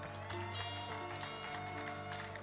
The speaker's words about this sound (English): let's put our hands together and welcome Laura Emmanuel